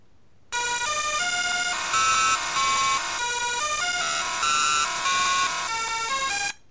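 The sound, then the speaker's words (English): Mangled rendition of the Blue Danube waltz from the 1980s video game Manic Miner: harsh, buzzy square-wave beeps play the melody in a steady loud stream of short notes, starting and stopping abruptly. “A rather mangled version of the Blue Danube from a game called Manic Miner, also released in the 80s.”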